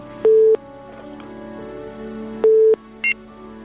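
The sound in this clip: Telephone tones follow a dropped call on a phone-in line: two identical steady beeps about two seconds apart, then a short higher-pitched beep, all over a low constant hum.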